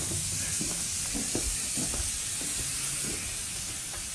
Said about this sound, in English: I got to turn off the pressure cooker.